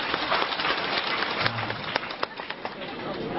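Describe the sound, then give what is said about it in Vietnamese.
Audience at a talk breaking into applause: a quiet, steady patter of many hands clapping, with a few sharper claps standing out toward the end. “Hay không? Vỗ tay.”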